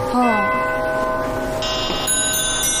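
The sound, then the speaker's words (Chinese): An 1880 German Winterhalder & Hofmeier mechanical mantel clock with hand-engraved casing strikes its chime. A few clear metallic bell tones ring out with long sustained overtones that hang in the air. “这是敲钟的声音。”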